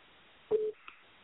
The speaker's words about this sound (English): That's a phone call coming in.